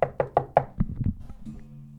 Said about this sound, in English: I bust by you. Knock on the door.